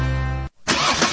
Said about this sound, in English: This is the sound of a car engine.